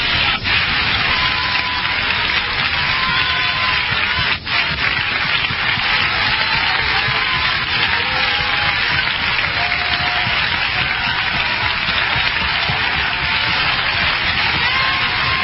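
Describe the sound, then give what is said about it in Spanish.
Congregation applauding in a church during a sermon: a dense, steady wash of clapping that holds at an even loudness for the whole stretch, with no talk over it. “¿Cuántos pueden darle un aplauso al Espíritu Santo?”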